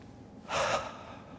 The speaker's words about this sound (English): Nice big breath in. Relax.